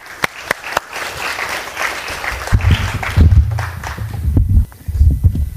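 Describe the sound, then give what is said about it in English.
A church audience applauds to welcome a teenage speaker forward, with a patter of clapping and a few sharp, distinct claps at the start, followed by low thuds as the applause carries on. “Christian, come forward. Let's give Christian a hand.”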